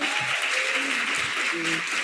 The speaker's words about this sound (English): Give them a round of applause, y'all.